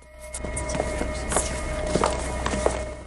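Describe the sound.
Footsteps of a man running down a corridor with a gun in hand, a series of irregular, fairly soft footfalls over a steady hum.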